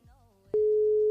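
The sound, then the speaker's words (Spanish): A telephone tone sounds while a caller phones a listener. After a brief, faint murmur of voice, a loud, steady single-pitch tone begins midway and holds without a break to the end. “Estoy llamando en este momento, ¿eh? Estoy llamando al ganador o ganadora.”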